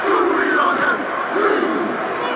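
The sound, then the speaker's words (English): Massed male voices shout the closing chant of the New Zealand rugby team's haka, the Maori war dance, before an England versus New Zealand match at Twickenham; loud, drawn-out cries rise over crowd noise. “What you can hear now is the end of New Zealand Saka, famous Maori war dance they perform before each match.”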